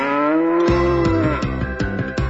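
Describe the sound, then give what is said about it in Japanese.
A cow moos on a Hokkaido dairy farm, one long, low call that holds a steady pitch before breaking into a rough, pulsing, wavering tail. “また牛かい。”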